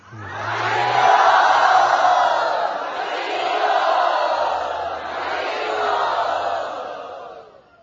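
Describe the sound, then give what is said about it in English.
A crowd loudly chanting in thanks to their hosts at a gathering: many voices sing together in long sustained phrases that swell and ease a few times before trailing off. “They're welcoming all of us. Let us thank them by loudly chanting.”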